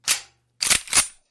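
A gun-shaped gift card holder fires three sharp, loud gunshot-like cracks: one bang, a brief pause, then two more in quick succession.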